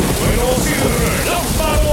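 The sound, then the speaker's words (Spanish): Rain falls as a sound effect in a radio station jingle: a dense, steady hiss fills the whole stretch at an even loudness. “¡Otoño Caribeña! ¡Con lluvia!”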